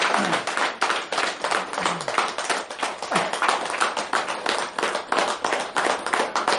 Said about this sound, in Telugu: Sir చప్పట్లు కొడదాం అన్నదాతలకు.